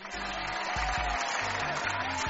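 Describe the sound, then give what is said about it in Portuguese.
Applause from a crowd rises over music with a steady, stepping bass line; the clapping forms a continuous bright patter that holds at an even level throughout. “Isso mesmo, palmas!”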